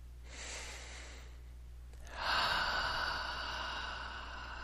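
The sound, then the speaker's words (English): Slow, deep breathing during a guided meditation: a soft breath in, then a louder, longer breath out with a breathy hiss, with no talking. “let's take a couple nice, deep, slow breaths”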